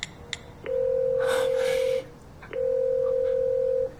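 Two long, steady mid-pitched telephone tones sound as a call is placed late at night. Each lasts over a second, with a short pause between them, over faint background hiss.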